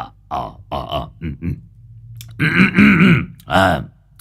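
An old man clears his throat several times in a string of gruff, voiced hems and grunts, loud and uneven, with a longer rasping one near the end.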